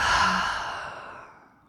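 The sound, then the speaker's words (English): A deep breath is let out as one long, audible sigh during a guided breathing exercise, a single breathy exhale that starts fairly loud and fades away gradually, with no talk. “When you feel ready, we'll take a deep breath in and a deep breath out.”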